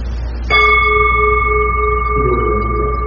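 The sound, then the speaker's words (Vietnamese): A Buddhist temple bell is struck once with a sharp onset, then a long, steady ringing tone with clear overtones sustains to the end. “Đó là ví dụ khi tỉnh chuông là mình phải đưa cái tiếng chuông lên như thế này,”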